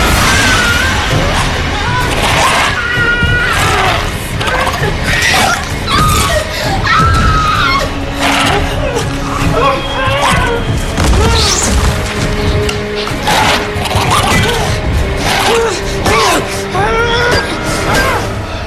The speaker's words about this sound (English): For me, it's just going to be the visceral sound of an aluminum baseball bat upside a kid's head.